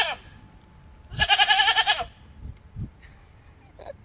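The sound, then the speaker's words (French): A herd of goats with their young kids bleats on a hiking trail: one loud, long, wavering bleat dominates, followed by a few shorter, fainter calls. “Rencontre avec un troupeau de bicates et ses petits.”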